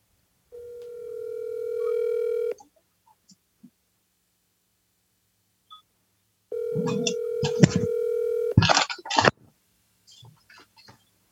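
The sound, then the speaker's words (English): Telephone ringback tones from an outgoing call: two long, steady buzzing tones separated by several seconds of near silence. Brief clicks and rustling noises follow the second tone. “All right, now I'm going to call her.”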